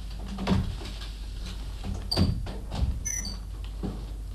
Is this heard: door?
yes